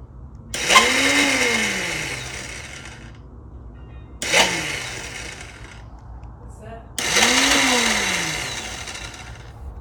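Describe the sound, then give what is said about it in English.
Whirring whine of a dirt bike's electric starter motor spinning freely on its Bendix gear without catching. Three long, loud mechanical bursts each sweep in pitch, separated by quieter gaps. “Listen to that sound. That's just the starter is spinning on the Bendex.”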